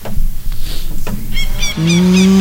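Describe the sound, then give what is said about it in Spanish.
A cow moos loudly, ending in a drawn-out, low, tonal call that holds steady through the final part. Some softer knocks and stirring come before it. “Soy yo, Margarita, la vaca influencer, o sea, la vaca más seguida del país.”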